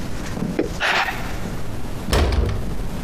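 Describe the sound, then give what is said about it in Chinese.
A door is closed with a dull, heavy thud and a low boom, preceded by a lighter knock, over a constant background hiss. “先把门关上。”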